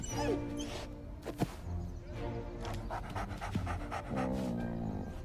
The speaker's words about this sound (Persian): این سگ اینجا چه غلطی میکنه؟